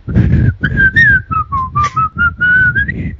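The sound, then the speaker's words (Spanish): A person whistles a TV series theme tune while pedalling a BH bicycle. The clear, wavering melody runs through many quick notes without a break, over a low, busy background rumble. “Aquí lo veo pedaleando con su BH silbando la sintonía de verano azul.”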